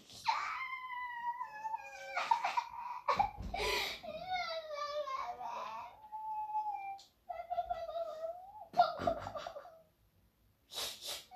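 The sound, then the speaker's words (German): Crying in long, wavering tonal whines that rise and fall repeatedly, broken by a few sharp breathy bursts, with quiet gaps between and a fainter stretch near the end. “Hier, hör auf zu heulen.”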